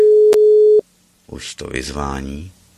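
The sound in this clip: A single steady electronic ringing tone from a WhatsApp voice call holds for under a second and cuts off, followed after a pause by a person speaking.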